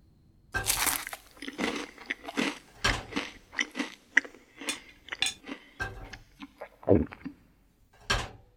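A boy eats meat, making crisp, crunchy bites and chewing noises in many irregular bursts, some sharp and loud, with short pauses between them and no talking.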